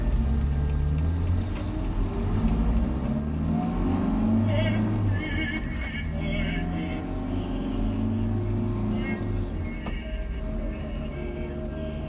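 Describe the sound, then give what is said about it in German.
A taxi lurches uphill through deepening ruts in heavy wet snow. Its engine gives a low, steady droning hum with shifting tones for the whole clip, and faint higher rattles flicker above it. “Als wir zum dicken Stein hinauffuhren, schlingerte der Wagen durch Spurrillen, die immer tiefer wurden, bis der schwernasse Schnee unter dem Bodenblech knirschte.”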